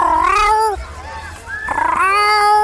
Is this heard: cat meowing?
yes